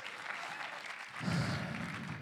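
A church audience applauds for Team World Vision on a Sunday service, the quiet, continuous clapping swelling a little past the middle before settling back.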